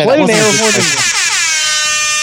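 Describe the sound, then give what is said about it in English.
A reversed air horn sound effect, a loud, blaring harmonic tone played backwards, opens with bent, wobbling pitch before settling into a steady sustained blare for about two seconds. “A reverse air horn.”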